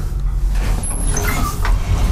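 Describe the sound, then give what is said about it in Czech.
Elevator doors slide open on the sixth floor of a building, a continuous low rumbling whoosh with a faint high whine above it, steady in loudness throughout. “Dveře výtahu se otevřely.”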